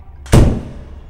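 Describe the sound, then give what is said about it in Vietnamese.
A door is slammed shut in one heavy, sharp thud that cuts in abruptly and dies away in a short low rumble, with nothing else around it. “Bất giác, cô dốc sức lùi về sau và đóng sầm cửa lại.”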